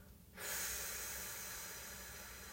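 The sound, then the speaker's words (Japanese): A deep breath during a guided relaxation breathing exercise: one long, airy rush of breath that starts abruptly and slowly tapers off, heard alone with no talk. “吐き切る最後吸って新しい空気を体に取り込んで吐きます”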